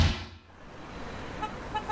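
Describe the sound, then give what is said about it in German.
Road traffic at a roundabout with cars, a bicycle and a horse cart passing gives a steady noisy wash after a loud opening burst, with a few short, high horn-like toots near the end. “Und ich stehe hier gerade noch an einem Rondell, wo man sagt, der eine fährt langsam, der andere fährt schnell. Und das Fahrrad noch dazwischen dazu, die Pferdekarre.”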